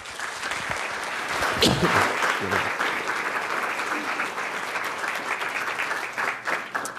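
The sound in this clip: An audience applauds to welcome a journalist to speak about Mexico's drug wars. The clapping is sustained and fairly even and fills the whole stretch without a break.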